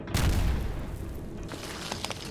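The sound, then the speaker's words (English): Explosions from bombing shake an underground complex, a deep, loud blast rumble that peaks in the first half second, then settles into a sustained roar with scattered crackles. “Are they bombing this place?”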